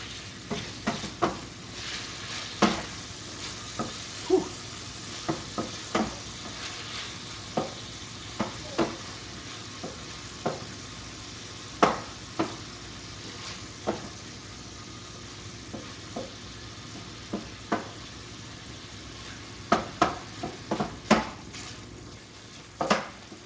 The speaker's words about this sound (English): I don't know if the fennel was a great idea, but better stir my sausage.